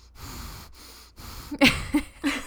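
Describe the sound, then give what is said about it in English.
Forceful, angry exhales through the nostrils, a person huffing in annoyance; three short, sharp puffs stand out after quieter breathing, with no speech. “It was angry exhales through your nostril. That's how I breathe when I'm annoyed.”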